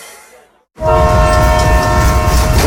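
A train on the Vinschgau railway sounds its horn: a loud, steady multi-tone blast starts abruptly after a brief quiet and holds over a low rumble of the train.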